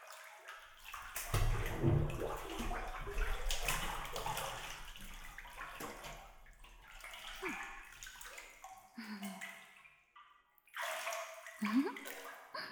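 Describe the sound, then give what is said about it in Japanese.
Hot bath water splashes and sloshes in a bathtub, a continuous watery churn that swells and eases with brief pauses near the end, while a voice speaks at times. “お湯はだいぶいい感じかも。あったか。ほいじゃ先輩、お湯に肩まで使ってもらえるっすか？”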